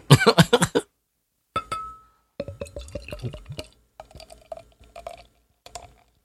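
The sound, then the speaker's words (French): A drink is poured into a glass: a short glassy clink, then uneven gurgling spurts of liquid with a ringing resonant tone, broken by brief pauses. “Alors, je la verse dans un verre.”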